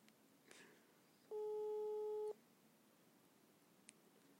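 Telephone busy tone from an unanswered call: one steady electronic beep lasting about a second, clear above a faint, quiet background.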